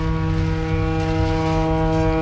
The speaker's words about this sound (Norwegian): Nei, det hørtes mer ut som et esel faktisk, når jeg tenker meg om det. Okay. Danskene kom ridende på esel, sånn var det ikke... Det et båthorn, tror jeg.